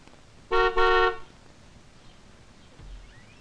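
A car horn honks twice in quick succession, loud and brassy, with the second blast slightly longer. Then only quiet background noise remains, with a faint low rumble near the end.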